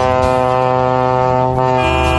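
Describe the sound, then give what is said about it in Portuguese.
A vehicle horn blares in one long, unbroken honk, loud and steady in pitch, with a slight change in tone near the end and no other sounds around it. “vamos buzinar que dá tempo. Dá tempo de buzinar ainda.”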